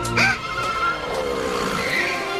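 A small bike's spinning back wheel squeals and whines as it wheelies around a corner, with high screeching tones that slide and waver in pitch over a continuous rough rolling noise.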